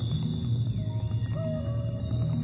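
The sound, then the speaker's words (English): Real whale and dolphin calls set into music: a dense, sustained low music bed with a clear rising whistle-like call midway and a thin steady high tone above it throughout. “those are real whales and dolphins”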